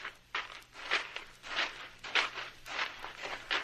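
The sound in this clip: Footsteps follow a fresh trail of a woman's moccasin prints across the ground: a steady, even series of soft scuffing, crunching steps with no voices.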